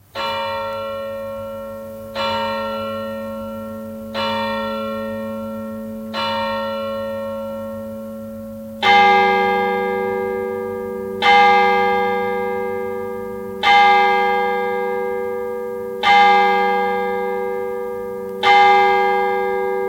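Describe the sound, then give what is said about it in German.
Church bells ringing at midnight in Bühlertann, with slow, resonant strokes about every two seconds, nine in all. A deeper, louder bell joins midway, and each stroke leaves a long, fading hum. “Mitternachtsläuten in Bülertan.”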